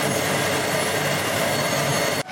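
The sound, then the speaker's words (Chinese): A generator set rumbles through a listening rod, sounding like rushing water. The steady, loud roar stays even throughout and then stops abruptly just before the end. “咱们的那个发电机组的那个声音好像是轰隆隆的水的声音”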